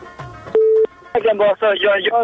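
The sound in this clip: A telephone call connecting on a radio call-in show: a click, then a short steady electronic beep, followed by a voice speaking over the phone line.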